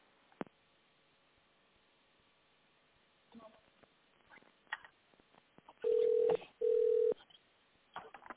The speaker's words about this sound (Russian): Наберите внутренний номер абонента или дождитесь ответа секретаря.